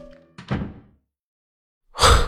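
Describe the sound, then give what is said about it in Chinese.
A door being shut as a visitor walks out, a short rustling clunk followed after a pause by a loud, solid thud. “说完，他走了出去，关上了门。”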